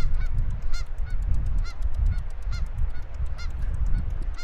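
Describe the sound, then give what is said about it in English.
Geese honking as they fly overhead in a V formation above an icy river in snowy winter, many repeated nasal honks over a low rumbling background. “I'm walking along here and I see a formation of geese flying up above me.”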